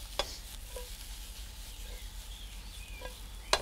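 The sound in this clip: Flour roasting in a pan while being stirred: a soft, steady sizzle with a few faint scrapes and clicks.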